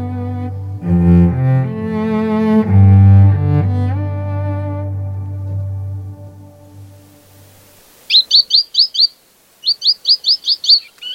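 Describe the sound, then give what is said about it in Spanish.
Blue tacuarita, the masked gnatcatcher, gives high, thin chirping calls in two quick bursts of about five or six notes each after music fades out. “Tacuarita proviene del guaraní. Tacua, que significa caña. Es donde los humanos nos veían frecuentemente. Nosotras, las tacuaritas azules,”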